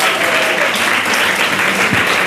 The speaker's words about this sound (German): Ich bitte nochmal meinen donnernden Applaus.